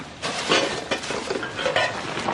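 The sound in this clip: Pots, pans and utensils clatter as they are unpacked from a bundle to start cooking, giving a moderate run of clinks and knocks with a few sharper metallic hits.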